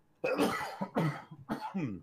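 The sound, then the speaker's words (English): A person coughs a few times in harsh, throaty bursts separated by brief pauses, the last one ending in a short voiced rasp. “Sorry, you guys. I'm dying. I don't have my push to mute. That's okay. That whole section I can just cut out super easy. Jay's gonna edit, so you say no. Hey, I want them to know I was coughing.”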